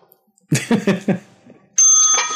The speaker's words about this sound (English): That was a bell.